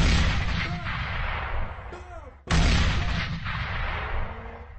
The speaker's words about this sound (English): I hit the bombs.